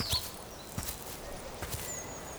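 Footsteps walking outdoors, a few soft, faint scuffing steps spaced fairly evenly over a quiet background.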